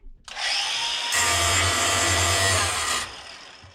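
An angle grinder played against a hi-hat cymbal gives a harsh, bright grinding screech. It starts abruptly, thickens with a lower motor drone after about a second, and cuts off sharply near the end.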